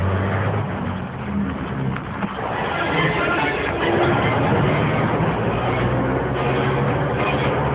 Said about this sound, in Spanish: ¿Lo ves? El motor se pone en marcha.